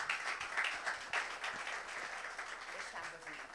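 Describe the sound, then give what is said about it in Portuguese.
Church audience clapping: a faint, steady patter of many hands with a voice speaking over it throughout. “Vamos dar uma salva de palmas, hein?”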